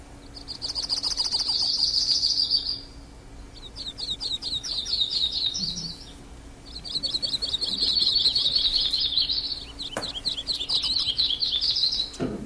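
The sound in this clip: Bird song in a forest: loud, high, trilled phrases repeat over and over with short pauses between them, alone without any talk.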